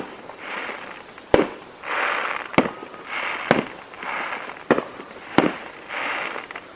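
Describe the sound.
Fireworks fired in rapid succession: five sharp, loud bangs come at short, uneven intervals, with broad hissing bursts between them and no talk.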